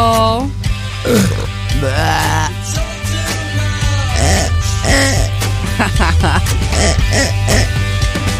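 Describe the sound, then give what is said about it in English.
A comic green pig sound effect: a busy, continuous stream of throaty grunts, oinks and squealing, chuckling vocal swoops. “That was a green pig.”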